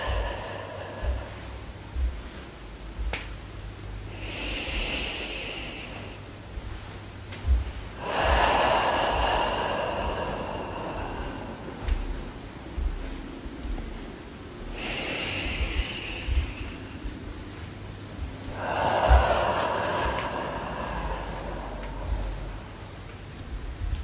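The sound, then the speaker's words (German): Slow, deep breathing in and out, heard as a few long, soft, airy breaths spaced evenly apart over a faint low steady background drone. “Dazu atmen wir wieder tief ein und aus.”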